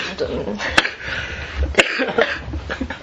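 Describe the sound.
Someone coughs and chokes, two sharp, abrupt coughs breaking through ongoing conversation.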